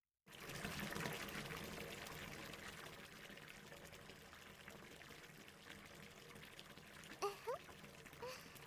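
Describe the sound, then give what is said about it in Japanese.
Liquid pours in a steady, faint, continuous stream as perfluorocarbon fluid is filled in to prepare a body for liquid breathing during a medical examination. “身体解像度3類用パワフルオロカーボン薬液の充填を開始します。体を楽にして液体呼吸に備えてください。”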